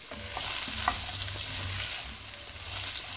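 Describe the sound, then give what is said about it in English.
Chopped celery, onions and carrots sizzle in melted unsalted butter in a heavy Dutch oven, a steady, moderately loud frying hiss with soft stirring and no talk. “in a heavy pot such as a Dutch oven. And to our melted butter, we will add the chopped celery, onions, and carrots.”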